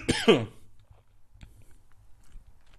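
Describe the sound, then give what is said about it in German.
A single short throat-clear, a rough voiced burst under half a second long, followed by near silence with only a faint low hum. “Räusper dich einmal.”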